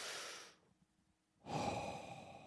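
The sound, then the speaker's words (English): One deep breath: a soft, airy inhale, a short quiet pause, then a longer exhale. Both breaths are faint and no one speaks. “Like I breathed in oxygen and I breathed out carbon dioxide.”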